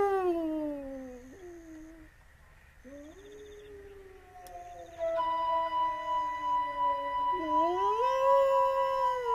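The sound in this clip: A man imitates a wolf howl: a few long, wavering, tonal howls that bend down and up in pitch, with a second howl overlapping in the latter half.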